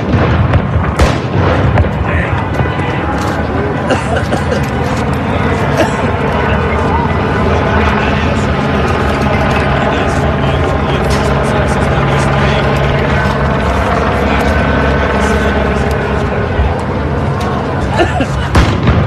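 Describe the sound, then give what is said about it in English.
Police fire rubber bullets and tear gas at demonstrators at a night protest in Phoenix, Arizona: sharp pops and booms scattered through a loud, dense, unbroken roar of noise lasting the whole clip. “Sound of rubber bullets and tear gas being fired at demonstrators last night in Phoenix, Arizona.”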